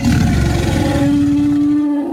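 A dinosaur roar sound effect in an ad for a family dinosaur event: one loud, sustained, growling roar with a low droning tone running through it, easing off slightly at the end.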